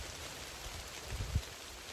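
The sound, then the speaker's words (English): Steady rain falls as a faint, even hiss, with a couple of soft low thumps near the end. “As you can hear, it's still raining.”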